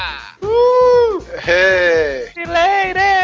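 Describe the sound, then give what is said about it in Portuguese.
Goat bleating in a few wavering, nasal cries that run close together, each with a shaky pitch that sags toward its end, loud and sustained with only short gaps between them. “o bode voltou, infelizmente”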